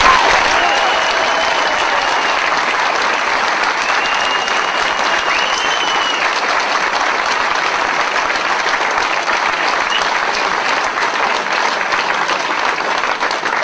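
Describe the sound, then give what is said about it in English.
Audience applause welcoming a speaker at an election gathering, a loud, continuous roar of many hands clapping that holds steady throughout without a break. “Ladies and gentlemen, please put your hands together and give a warm welcome for Mr. David Icke.”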